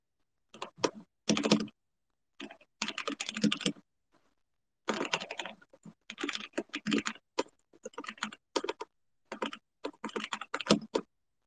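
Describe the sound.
Typing on a computer keyboard comes through as faint bursts of rapid clicking keystrokes, grouped into several runs separated by short pauses.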